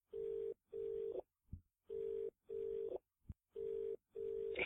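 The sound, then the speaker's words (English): An outgoing telephone call rings out with a faint, steady electronic ring tone in repeating pairs of even beeps. Short clicks fall in the gaps between the pairs. “For our directory, please press 0 or remain on the line. Dialing.”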